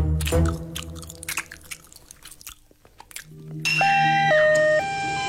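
A child chewing and biting quail eggs makes moist, crunchy bites in an uneven run, followed by a short, sustained tonal melody.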